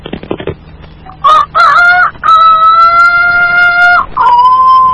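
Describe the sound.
A person imitates a rooster crowing. After a few light taps, a short high note opens into a long, loud, sustained crow with a bright tone, ending in a brief final flourish.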